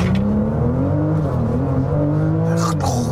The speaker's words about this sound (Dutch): Meteen launch control doen. Rustig dan. Oké. Voet rem, voet vol gas.